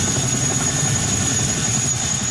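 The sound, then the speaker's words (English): A National Guard military helicopter flies while delivering troops and supplies. Its engine and rotor make a steady, loud, low drone with a thin high whine, constant in level throughout. “A National Guard helicopter delivers troops and supplies to the region.”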